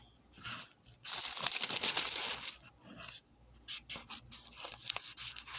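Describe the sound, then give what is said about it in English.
Book pages being turned by hand: a run of dry paper rustles, swishes and crisp flicks, irregular and fairly soft, with short pauses between turns and no talking. “as you can hear, I'm turning pages.”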